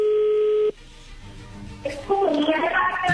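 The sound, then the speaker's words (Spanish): A telephone line carries a single steady ringing tone that cuts off abruptly, followed by a quiet pause on the line and then a voice speaking. “Ya entró la llamada.”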